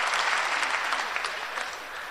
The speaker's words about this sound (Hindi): अब ताली बजाने की छूट है, होली आ रही है, कूदना फांदना ताली बजाना जो ब्रेक मारा था छूट मिल गई अब